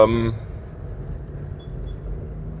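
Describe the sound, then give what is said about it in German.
Heavy trucks rumbling through narrow alleys, a deep, steady drone that continues after a brief voice at the start. “Weiei, schwere LKW in den kleinen Gassen hier.”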